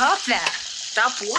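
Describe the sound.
Fish frying in a kitchen in a movie scene, heard as a steady bright sizzling hiss beneath two people talking briefly.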